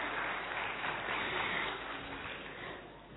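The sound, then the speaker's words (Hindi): An audience applauding to welcome an honoured guest at a gathering, with dense, steady clapping that holds strong and then gradually thins toward the end. “Padmashri Mohammad Arif भाई को हम सब करतल ध्वनि से स्वागत करते हैं।”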